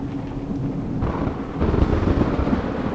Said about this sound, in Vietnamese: Từ ở trên bầu trời mây đen tụ lại, cuồng phong nổi lên, mưa sấm ầm ầm.